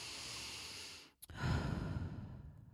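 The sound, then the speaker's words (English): Deep breathing done together in a relaxation exercise: a long, airy, sigh-like breath, a brief near-silent gap with a small catch, then another full, breathy rush that slowly tapers off. “Breathe. Let's breathe together. Again.”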